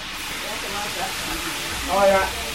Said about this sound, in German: mit der Zubereitung von Garnelen und Langusten beschäftigt sind, bevor die Krustentiere im Öl landen. Ein gutes Dutzend brutzelt schon.